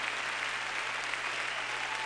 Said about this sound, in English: Give him one more hand clap.